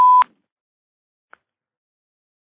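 An incoming phone call announces itself with a short electronic telephone beep, a single bright steady tone lasting a fraction of a second at the very start. A faint tiny blip follows about a second later, then silence.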